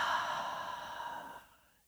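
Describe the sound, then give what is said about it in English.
A deep breath during a guided meditation, released through the mouth as a soft, airy exhale that holds steady, then tapers off into silence. “inhaling deeply through the nose and then exhaling out through the mouth”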